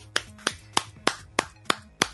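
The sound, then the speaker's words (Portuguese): Seven hand claps in an even, steady rhythm, each a sharp, fairly soft crack separated by brief quiet, with no voices. “Estou batendo palmas”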